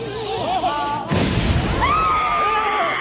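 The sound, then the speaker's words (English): A bomb hidden in a cake at a wedding explodes in one sudden loud bang that rumbles and fades, with voices just before and a shout right after. “Wait, stop! There's a bomb in the cake. Don't worry. I used to be a bomb guy. Everyone stand back!”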